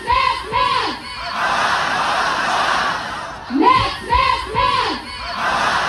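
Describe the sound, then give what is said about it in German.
About 1000 students protest on university lawns, with a crowd chanting shouted phrases in rhythmic bursts at the start and again later, and a steady mass of voices in between. “gut 1000 Studenten haben am Mittag auf den Uniwiesen protestiert”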